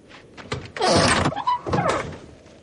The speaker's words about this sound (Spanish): cuando se abre el maletero